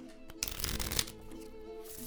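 Tarot cards are shuffled in one short, quiet riffle that swells briefly and then settles into a soft rustle.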